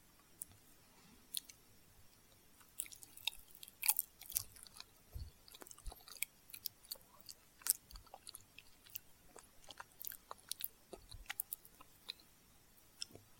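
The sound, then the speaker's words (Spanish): Someone chewing a bite of banana-and-milk dessert: many faint, irregular wet clicks and soft crunches, with a few sharper smacks scattered through. “Ah, está delicioso. Está exquisito. Leche con plátano.”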